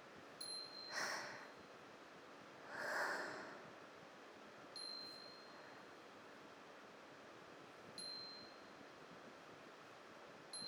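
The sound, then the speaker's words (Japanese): A Japanese glass wind bell (furin) chimes three times, each a thin, high, bright ping spaced a few seconds apart, faint over a steady airy hiss with a couple of soft whooshing swells. “風鈴の音も流しましょうか。”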